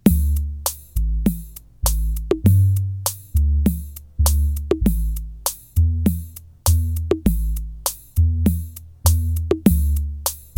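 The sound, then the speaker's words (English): Bass and drums playing a practice backing track, a steady looping groove of punchy drum hits over deep sustained bass notes. The pattern repeats many times at an even tempo, moderately loud, with no voices. “it's got some bass, it's got some drums. It sounds like this.”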